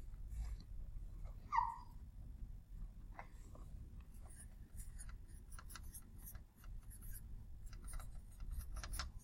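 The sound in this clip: Writing on a board makes faint scratchy strokes, many short marks in an uneven rhythm over a low steady hum.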